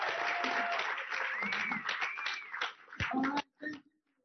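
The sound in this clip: An audience claps to welcome a comedian to the stage, with some cheering voices mixed into the dense clapping. The applause thins and dies away near the end.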